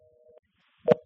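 A telephone line tone after a dropped call: one short, steady, faint beep, then a brief click.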